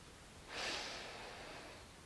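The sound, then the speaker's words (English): A deep breath in through the nose during a guided breathing exercise: one long, quiet nasal inhale that swells at about half a second and slowly tapers over the next second and a half. “Now we're going to take a deep breath in through the nose.”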